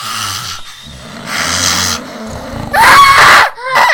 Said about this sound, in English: No, that's what a scream sounds like.